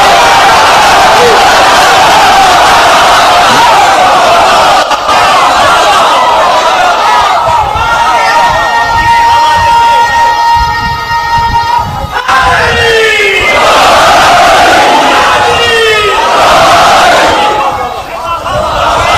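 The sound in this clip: A crowd shouts religious slogans together at a religious gathering. The shouting is loud and sustained, with raised, drawn-out voices rising above the mass and bursts of yelling near the end.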